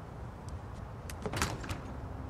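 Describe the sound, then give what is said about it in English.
A door is shut, giving a brief cluster of quiet rattling clicks and a soft latching clunk against a low steady background. “Kara shuts the door.”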